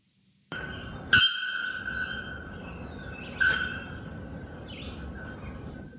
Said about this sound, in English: a related bare-throated bellbird. That one sounds like this.